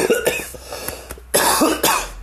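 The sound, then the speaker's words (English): A fit of coughing: a run of short, rough coughs, then two louder, harsher coughs, heard alone without any talk. “oh, sorry to cough on the podcast.”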